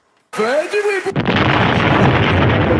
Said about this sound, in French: Il a explosé en plein vol.